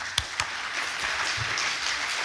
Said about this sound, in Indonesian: Tepuk tangan sekali lagi untuk Ibu Kepala RRI.